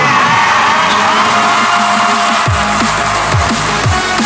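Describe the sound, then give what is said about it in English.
A large arena crowd cheers, whoops and yells loudly and without a break, a dense roar of many voices that holds steady from start to finish. “I've never seen a crowd so fired up. Can I hear some noise inside the place, please?”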